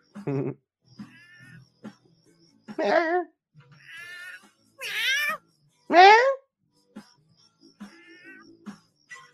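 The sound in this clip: A cat in heat yowling and meowing: a series of wavering, drawn-out cries separated by brief pauses, some loud with bending pitch and others quieter and shorter.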